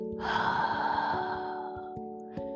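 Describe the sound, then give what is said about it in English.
A long, deep breath taken during a guided gratitude meditation: one soft, airy rush that swells and then fades over about a second and a half, above a quiet, steady sustained tone. “let us take a deep breath in and a deep breath out”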